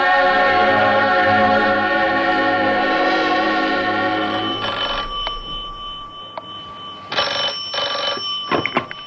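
A telephone bell rings in two bursts of bright, rapid trilling as music fades out beforehand, with short pauses and small clicks between the rings.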